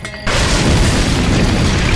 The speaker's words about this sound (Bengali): top করে গহ্বরের মধ্যে আগুন জ্বলে উঠল